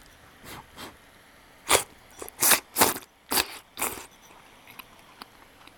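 Crunchy biting and chewing of sukiyaki cooked in an iron pot with duck fat and garlic: a few sharp bites cluster in the middle, with quieter chewing before and after and no talk.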